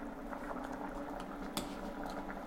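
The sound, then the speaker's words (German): Coconut soup simmers in a pot, giving a steady, faint bubbling and gurgling of liquid with small pops throughout. Nobody talks. “Zurück zur Suppe. Das köchelt jetzt noch immer, das ist okay.”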